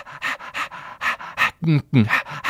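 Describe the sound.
A child imitates a dog panting with many quick, rhythmic breathy huffs, closing with a few louder voiced, whiny sounds.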